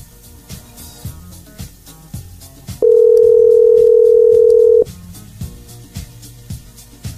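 An odd-sounding telephone ringing tone plays as one steady, loud, unbroken tone for about two seconds. It stands out over a quieter rhythmic background that carries on before and after it.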